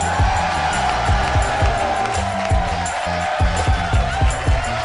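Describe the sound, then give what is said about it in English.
A theater crowd at a live comedy show cheers and applauds as the host is introduced. The roar is loud, dense and continuous, with low thumping running underneath. “Would you please put your hands together for the mayor of Harmontown, Dan Harmon.”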